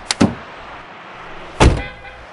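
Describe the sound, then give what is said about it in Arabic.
A car door is opened, with two quick latch clicks followed a moment later by a louder clunk as the door swings free. “أنا بدي أفتح لك الباب وتنزلي بشويش.”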